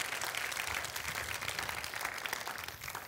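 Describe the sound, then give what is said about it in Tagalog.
Applause from a church audience, praising God during a sermon: a soft, even wash of clapping that holds steady for the whole stretch, with no voices over it. “Palakpakan niya po natin yung Panginoon.”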